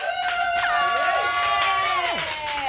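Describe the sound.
A studio audience cheers wildly at a food and music show, with loud, sustained crowd noise and high whoops and shouts rising through it. The roar stays dense and steady from start to finish.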